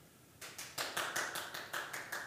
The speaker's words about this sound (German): Mit Applaus aus der Regie.